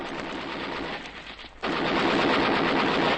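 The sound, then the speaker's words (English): Gunfire erupts in a battle scene as men open fire on someone: a dense, continuous rattle of rapid shots. It dips briefly midway, then resumes louder and unbroken, with no voices. “Watch the other blokes. They've opened fire on him. Shoot quickly.”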